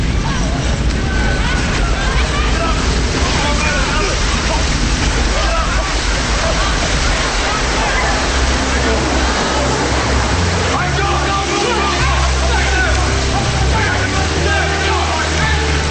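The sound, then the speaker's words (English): Water bursts through a wall and rushes upward, rising rapidly: a loud, continuous roar of churning, sloshing water with a heavy low rumble underneath, sustained without pause throughout. “water bursts through the wall, rising rapidly. They get swept off their feet by the rushing water and then run up the stairs.”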